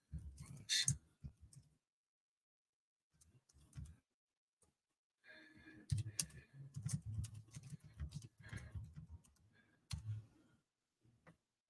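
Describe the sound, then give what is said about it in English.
Faint typing on a keyboard: soft, irregular clicks and taps arriving in scattered bursts, quiet at first and growing denser in the second half, with short pauses between runs of keystrokes. “I'm going to type this in here.”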